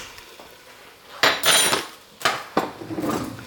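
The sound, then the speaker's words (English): Scraping and clinking of a utensil against a bowl as ingredients are mixed for a coronation no-chicken dish. A few irregular bursts of clattering stir sounds come through fairly loudly, with no talking. “Get that mixing in.”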